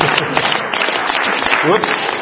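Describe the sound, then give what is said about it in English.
Audience applause for a man on stage during a comedic strength demonstration, carrying a volunteer on his back. It is a continuous, dense patter, with a voice talking over it. “Oopsie, now you're going to really have to clap. Come on, clap for the man.”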